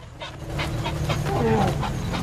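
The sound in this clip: An adult elephant growls in a throaty way with its mouth open during a standoff with a vehicle; the growl is a rough, breathy, sustained rumble with a wavering tone that stays loud throughout.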